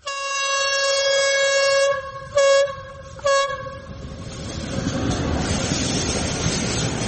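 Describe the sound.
A train passes near a village, its horn blaring a loud, steady chord that breaks off briefly twice before fading into the broad, rumbling roar of the passing cars.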